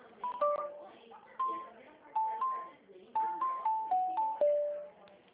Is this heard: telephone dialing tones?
yes

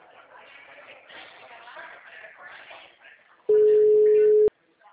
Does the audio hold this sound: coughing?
no

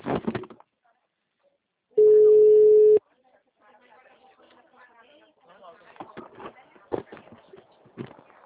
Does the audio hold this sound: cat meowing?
no

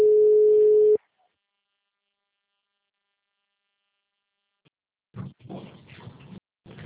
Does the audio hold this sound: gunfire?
no

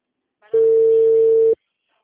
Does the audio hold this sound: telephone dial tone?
yes

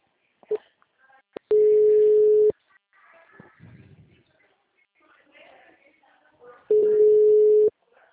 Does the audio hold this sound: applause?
no

